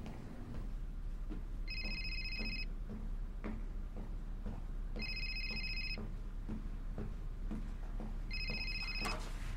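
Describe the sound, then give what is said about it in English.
A restaurant telephone rings three times. Each ring is a bright, buzzing electronic trill lasting about a second, evenly spaced, over a steady low background hum with scattered faint clicks. “Now she exits the kitchen to answer the restaurant phone.”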